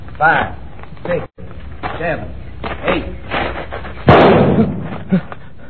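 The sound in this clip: A single loud, sharp pistol shot in a duel rings out after a stretch of voices, with talk continuing around it.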